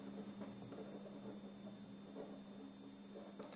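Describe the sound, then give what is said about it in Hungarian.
A hand writes on a board to label a point on a lecture diagram, faint scratchy strokes continuing steadily without talk. “Amit én eljelölök egy C ponttal. És ide föntre ki is írom.”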